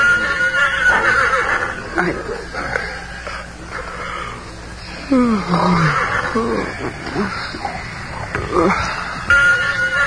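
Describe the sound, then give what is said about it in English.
A frightened pony whinnies at night in a camp. The shrill, shaky neigh drops in pitch partway through and sits amid other faint noises. “William Barclay Masterson sensed, rather than heard, his pony's whinny of fear”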